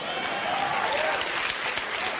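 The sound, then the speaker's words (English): An audience applauds with thick, continuous clapping from many hands, holding at a steady level throughout. “Dickish white guys applauding.”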